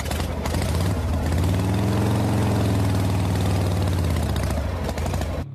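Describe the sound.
A motor vehicle engine idling: a steady, loud, low throbbing rumble with a regular pulsing beat, continuous for several seconds. No voices are heard.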